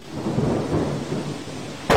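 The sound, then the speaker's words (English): A thunderstorm with steady hissing rain and low rolling thunder rumbling throughout. A sudden loud burst of thunder breaks in near the end. “It was a dark and stormy night.”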